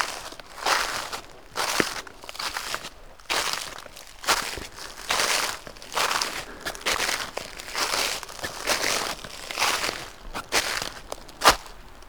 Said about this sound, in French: Avant les premières neiges, ce tapis de feuilles mortes